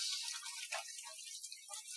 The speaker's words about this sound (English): give my hands uh, a bit of a rinse